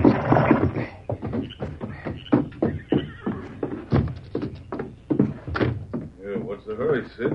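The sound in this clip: A horse reined to a fast stop at a shack, with irregular hoof thuds and clatter, snorting breaths, and a whinny near the end, the sounds coming in uneven bursts.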